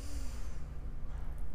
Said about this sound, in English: Breathe in.